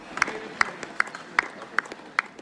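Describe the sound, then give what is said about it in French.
Young participants at a detox centre applaud fellow addicts returning from an outing. The clapping is faint, slow and evenly spaced: six sharp claps, with a few softer ones in between. “Cet après-midi, un groupe de jeunes participants applaudit d'autres toxicomanes rentrés d'une activité au centre-ville. Ces applaudissements,”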